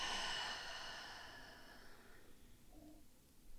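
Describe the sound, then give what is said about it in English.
Deep breathing during a relaxation exercise: a breathy, airy exhale that starts fairly strong and fades gradually over about two seconds, followed by faint, quiet breath sounds. “just take a deep breath in and a deep breath out.”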